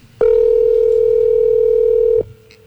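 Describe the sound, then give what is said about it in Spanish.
Ringback tone of a telephone call ringing unanswered on the line: one steady, loud, buzzing note lasting about two seconds, then cutting off into quiet line noise. “Ahí está timbrando.”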